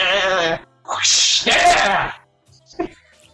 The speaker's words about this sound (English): whips cracking and, like, goats braying